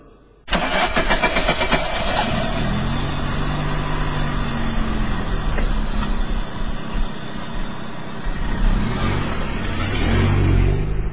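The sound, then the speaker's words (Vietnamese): A Renault Sport car's engine starts abruptly and keeps running loudly with a steady, rough drone and some revving as the car pulls slowly out onto the road and drives off. “rồ máy, xe từ từ ra lộ rồi dông mịt”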